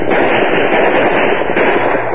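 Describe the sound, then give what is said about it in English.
Gunfire from a sheriff's posse shooting over outlaws' heads during a raid on a ranch: a dense, crackling volley of many overlapping shots that keeps up without a pause. “The sheriff and his posse, firing over the outlaws' heads, moved in on them before the crooks knew what happened.”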